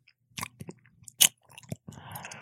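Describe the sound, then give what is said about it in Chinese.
Chewing as a heavyset man sitting on a bare mountaintop eats a chicken drumstick: several moist, crunchy bites in uneven bursts, one sharper crunch in the middle, ending in a steady soft hiss. “一个胖子正席地而坐，嘴里不停地咀嚼”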